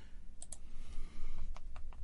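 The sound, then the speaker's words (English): Faint keyboard clicks come from typing a web search on a computer keyboard: a few light, sharp taps spread unevenly over a low, steady background hiss. “I'm going to have to Google that one. That's a good question. I can't even type.”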